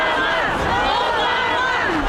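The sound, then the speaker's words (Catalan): A crowd chants and cheers Obama's name outdoors in cold, windy weather. It forms a dense, continuous roar of many voices with overlapping shouts and no breaks. “Obama, corejat ara mateix per la multitud.”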